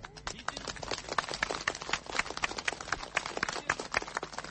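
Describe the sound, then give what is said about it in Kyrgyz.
Applause from more than 150 local supporters waiting outside the Kara-Buura district court: dense, crackling handclaps that stay fairly faint and steady throughout, with no break. “Ушундай кол чабуулар менен Өмүрбек Текебаевди бүгүн Кара Буура районунун сотунан чыгып келе жаткан жеринен соттун алдында күтүп турган анын 150 ашык жергиликтүү жактоочулары тосуп алышты.”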